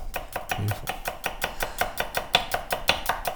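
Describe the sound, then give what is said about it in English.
A knife chops an onion in quick, even strokes. Many crisp, regular cuts sound in a steady rhythm throughout, with no voices. “I could listen to you cut onions all day long.”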